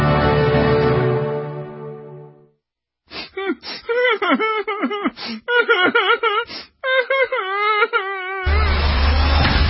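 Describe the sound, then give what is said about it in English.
Whining and moaning voice, a string of short, wavering cries that bend up and down in pitch, broken by brief pauses. “No whining.”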